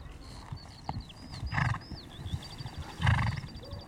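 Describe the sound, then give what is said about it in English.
Horses carrying riders pass by on a morning ride, their hooves giving soft, uneven thuds that swell twice, while high, chirping birdsong continues above throughout. “Oh, so a couple of horse riders have just gone by. There they go, out for a morning ride.”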